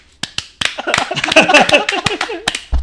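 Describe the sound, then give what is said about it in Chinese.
Hands clapping like a sea lion: an uneven series of sharp slaps scattered among lively talking voices. “个海狮啊，海狮咁拍手”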